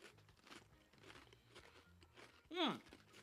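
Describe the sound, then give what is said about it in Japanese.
A loud crunch as a thick, crunchy teriyaki burger flavoured potato stick snack is bitten, coming near the end after a stretch of quieter low sounds. “ポテトですね、 うんうん、 じゃがりこ風の 太めじゃがりこって感じですね、うん、 はいいただきます どうですかねおじさんが照り焼きバーガー味のポテト食ってます”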